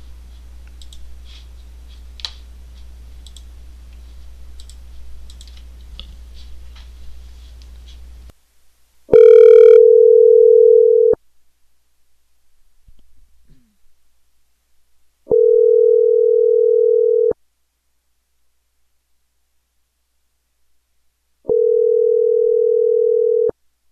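Telephone ringback tone while calling someone back: after a low hum and faint clicks, three steady, loud tones of about two seconds each sound at even intervals, with silence between them.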